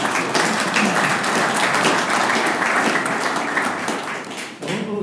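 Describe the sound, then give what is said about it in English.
Audience applause, a sustained, dense patter of many hands that eases slightly before a voice comes in near the end. “Yeah, round of applause.”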